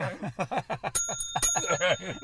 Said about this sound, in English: So mature with your muted bell rings.